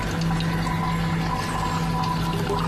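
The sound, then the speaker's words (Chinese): Milk liquor distilled from fermented yogurt trickles out of a still along a slanted baffle and thin hemp cord into a container below, a steady, unbroken watery splashing and pouring sound. “遇冷凝成液体，顺倾斜的挡板和细麻绳流出蒸馏桶，滴落到外面承接的容器里。”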